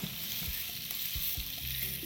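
Steady hissing sizzle of food stir-fried in a wok with shiitake mushrooms and soy sauce until fragrant. A continuous crackling fry runs throughout, broken by a few low knocks from stirring, with no talk.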